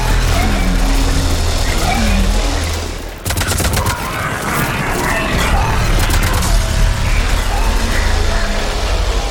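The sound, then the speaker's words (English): Rapid bursts of gunfire crackle through a loud, continuous battle din as a destroyer closes in. A sharp cluster of shots stands out midway against steady rumbling noise. “There they are! They're shooting.”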